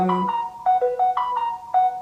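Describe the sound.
A mobile phone ringtone plays a short melody of bright electronic tones that step up and down in a repeating pattern, each note sharply struck and fairly loud, with no talking.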